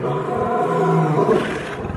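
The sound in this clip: A lion roars once, a deep, loud, rumbling growl that holds for about two seconds before easing off slightly at the end.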